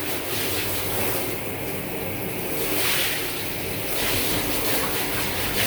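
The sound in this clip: Hot water rushes steadily over an air conditioner filter as dirt is rinsed off, making a loud, continuous hissing splash with only slight swells in level and no talk.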